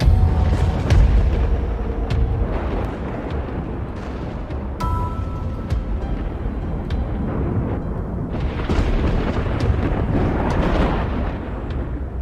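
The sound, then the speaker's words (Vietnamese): Thunder rumbling after a lightning flash: loud, deep booming rumble that rolls on for about twelve seconds, swelling in a few surges with scattered sharp cracks, and no voices. “Bỗng nhiên bầu trời lóe sáng lên, một tia chớp rực lên, kèm theo đó là tiếng sấm đùng đùng vang vọng.”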